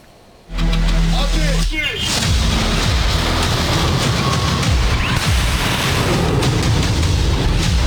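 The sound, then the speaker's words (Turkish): A Siper long-range air defence missile test destroying a high-speed target begins with a sudden loud roar after a brief quiet. It settles into a sustained, heavy rumbling blast, with a voice heard over it. “Uzun menzilli hava savunma sistemi Siper gerçekleştirilen testte yüksek hızlı hedefi başarıyla imha etti. Milli Savunma Bakanlığı da o anlara ilişkin görüntüleri kamuoyuyla paylaştı.”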